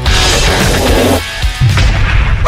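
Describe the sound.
A bomb explosion sound effect: a loud, rumbling blast that briefly drops away midway, then swells again.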